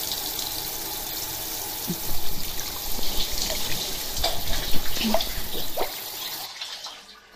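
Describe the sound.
Warm water pours over a person's face to rinse it during a shampoo service, a steady soft hiss with small splashes and drips that fades away at the end.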